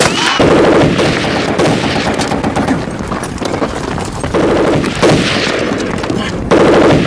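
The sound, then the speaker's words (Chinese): Rapid gunfire in dense, sustained bursts, like machine guns firing during a retreat. Many shots run together loudly throughout, with brief dips between volleys. “停止射击。”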